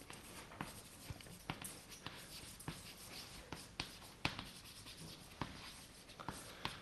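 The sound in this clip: Faint scratching of writing strokes during a lecture on black-box optimization, many short scraping strokes in an irregular rhythm with soft rubbing between them.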